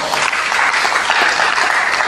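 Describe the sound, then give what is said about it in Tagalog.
Congregation applauding during a Filipino church worship service in praise of the Lord: dense, even clapping from many hands that fills the whole moment without a break and with no voices on top. “Palakpakan po natin muli ang Panginoon.”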